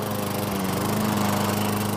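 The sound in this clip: A lawn mower runs as a garden machine in summer, giving a steady, loud, buzzing engine drone with an even pitch and a constant rough hum throughout.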